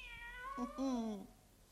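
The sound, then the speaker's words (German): A cat meows by a window, giving a single drawn-out, slightly wavering meow that is fairly faint and heard alone. “Komm, mein Katerle, komm. Jetzt werden wir schlafen gehen. Komm runter. Na komm schon runter vom Fenster.”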